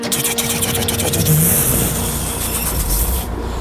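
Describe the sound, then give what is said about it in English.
A car engine runs with a loud, steady mid-pitched drone and some revving, continuous from start to finish with only slight swells in level. “I turn the key. I feel the engine turn over. It takes it.”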